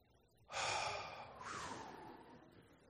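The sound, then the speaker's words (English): An audience draws in a big collective breath and lets it out: a loud, breathy rush rises suddenly after a short quiet, eases, swells again midway and then trails off slowly, with no talk. “Everybody take a big breath.”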